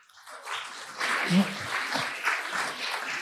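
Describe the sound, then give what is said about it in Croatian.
Audience applause for a project at a finale event, a moderate, steady patter of clapping with a voice heard over it. “Aplauz za ovaj lijepi projekt.”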